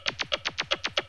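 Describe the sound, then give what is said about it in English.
Hi-Q percussion effect made of filtered white noise, opening a pop remix: nine quick, evenly spaced bright hissing hits in a tight, steady rhythm, each one sweeping downward in pitch. “That sound is filtered white noise and it's known as Hi-Q.”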